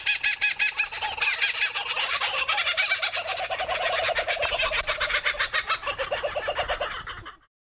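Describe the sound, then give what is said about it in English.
A kookaburra's laughing call, a loud, rapid cackle of pulsed, chuckling notes that runs on for several seconds before cutting off abruptly. “That was the sound of a kookaburra laughing.”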